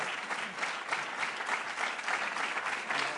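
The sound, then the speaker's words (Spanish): Audience applause for composer Benet Casablancas, a fairly soft, even wash of many hands clapping that continues steadily throughout. “es hora ya de que saludemos y demos un aplauso a Benet Casablancas”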